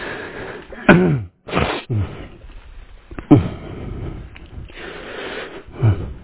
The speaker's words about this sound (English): Now, we are going to try to breathe.